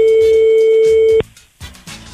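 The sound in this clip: A telephone ringing on a call line, one steady, even ring tone that holds for about a second and then cuts off abruptly. Voices talk under the ring and carry on after it.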